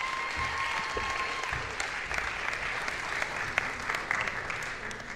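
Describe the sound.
Church audience applause welcoming a guest speaker: dense, even clapping that holds at a steady level from start to finish.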